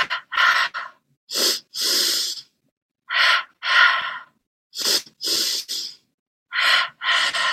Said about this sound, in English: And now inviting in that pulse breath. Inhaling 2 times through the nose and out through the mouth 2 times.